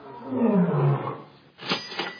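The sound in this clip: A lion roar plays on a game show, a deep, rough growl that swells and fades over the first second or so. Two short, noisier bursts follow.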